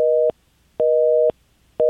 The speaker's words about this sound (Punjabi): ISO 7 ਕਾਲ drop ਹੋ ਗਈ ਹੈ।